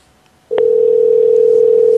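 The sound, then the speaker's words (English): A telephone dial tone plays while a phone number is being called: after a brief click about half a second in, a loud, steady single-pitch tone holds unbroken for about a second and a half, then stops. “Let's call another phone number tonight before we end the show. Okay? Maybe nice. Maybe we can get someone to answer the phone.”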